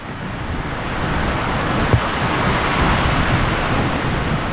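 Wind blows outdoors by the seashore as a steady, loud, continuous roar that fills the whole clip without letup, with one brief soft thump partway through.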